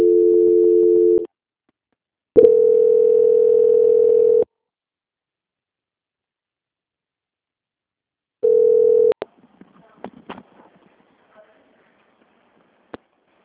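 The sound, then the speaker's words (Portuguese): Telephone tones during a call transfer: a steady, loud tone in three separate bursts with silent gaps, followed by scattered faint clicks and small noises, with no talk. “Eu peço para você aguardar só mais um minutinho comigo que eu vou transferir para o setor de qualidade, tá bom? Tá. Transferência.”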